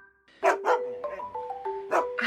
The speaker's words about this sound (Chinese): 哥，这是你家的狗呀，长得真好看。